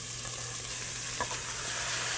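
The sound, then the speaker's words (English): Kimchi and kimchi juice sizzle in a hot pan over high heat, a steady, dense crackling hiss with one brief louder spurt midway and a low hum beneath, with no voices. “We're gonna add in the kimchi along with the kimchi juice.”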